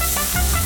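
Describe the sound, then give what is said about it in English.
Sizzling fajitas at El Mogwai, a restaurant in Cameron, give off a steady, bright hiss that lasts under a second with no voices. “Can you hear that? That's the sound of dinner at El Mogwai in Cameron.”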